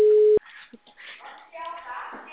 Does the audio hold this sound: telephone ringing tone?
yes

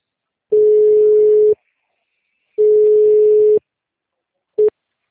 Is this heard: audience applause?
no

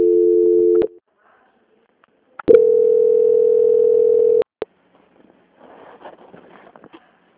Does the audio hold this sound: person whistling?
no

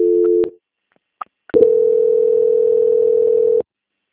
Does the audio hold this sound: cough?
no

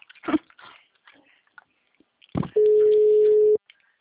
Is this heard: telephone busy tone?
yes

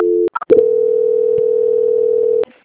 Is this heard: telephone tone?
yes

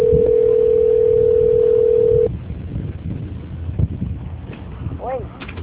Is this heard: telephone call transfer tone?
yes

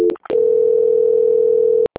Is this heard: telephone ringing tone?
yes

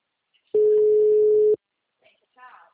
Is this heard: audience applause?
no

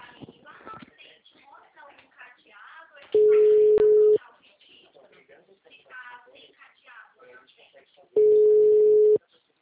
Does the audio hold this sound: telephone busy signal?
yes

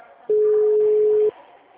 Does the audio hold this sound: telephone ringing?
yes

